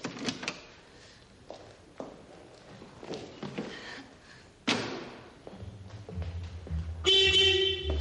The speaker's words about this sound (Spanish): sube al asiento del copiloto y toca el claxon con gesto sonriente.